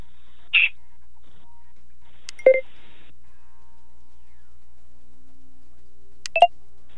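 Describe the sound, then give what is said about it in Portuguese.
Telephone dialing tones sound as a dropped call is being reconnected: three short, clear electronic beeps, spaced well apart, each brief and alone with no voices. “A ligação caiu. Vamos tentar restabelecer aqui a conexão para continuarmos com esse bate-papo.”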